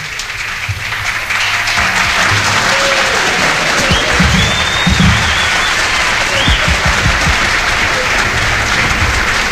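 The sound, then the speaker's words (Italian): Applause from an audience at an Italian event, loud and sustained, with dense clapping that rises quickly and carries on steadily for about eight seconds. “Applausi.”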